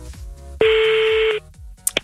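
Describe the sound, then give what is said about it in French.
A telephone keypad tone rings out as a single loud, steady electronic beep while a number is dialed to call someone's mother. A faint, regular low pulse runs underneath, and a couple of short clicks follow. “Allez, on appelle maman.”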